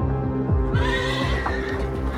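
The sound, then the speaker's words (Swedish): A horse whinnies loudly as horses are harnessed to wagons that head out toward fires, the neigh rising and wavering over a steady low background. “Hästar spänns för och vagnar körs ut mot bränderna ändå.”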